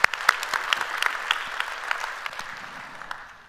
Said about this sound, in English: If you would, put your hands together and welcome them to our services here today.